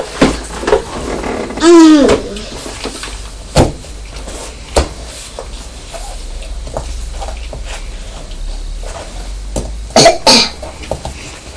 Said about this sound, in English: No, I've done a cough. Well done now, cough. You've finished coughing, have you?